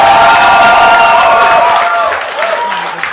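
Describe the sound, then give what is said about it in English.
A crowd cheers and applauds loudly to vote for the film BVS as most influential, with shouts over clapping that drop off sharply after about two seconds and then linger more faintly. “Make some noise if you think BVS was the most influential.”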